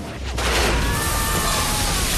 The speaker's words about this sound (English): Elsewhere, a car bomb explodes in a main street.